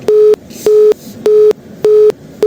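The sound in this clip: A telephone busy tone plays after a call drops for lack of network: five loud, steady, mid-pitched beeps in an even on-off rhythm, each lasting about a quarter second with short silent gaps between.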